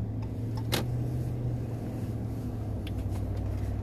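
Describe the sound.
A car drives along a road, producing a quiet, steady low rumble that continues evenly from start to finish.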